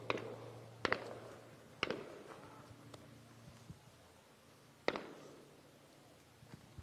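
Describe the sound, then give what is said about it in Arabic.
Live gunfire aimed toward young men: a few sharp, isolated cracks spaced irregularly, each with a short decaying tail, over a low steady hum, with no voices. “في هذه الأثناء نسمع عدة طلقات حي باتجاه شبان نراهم أمام أعيننا في هذه المنطقة.”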